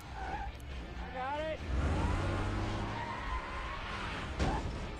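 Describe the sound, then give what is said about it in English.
A car drifts with its tires squealing and skidding over a roaring engine. The noise is loud and continuous, with brief voices heard over it. “Epic drift.”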